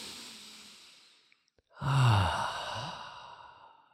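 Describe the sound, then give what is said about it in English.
A slow, deep breath taken during a guided breathing exercise: a faint airy inhale, a short pause, then a louder voiced sigh of exhalation that gradually fades. “So I want you to pause whatever you're doing and take a deep breath with me.”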